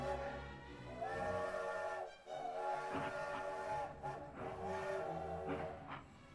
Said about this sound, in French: Attention, éloignez-vous de la bordure du quai, le train part.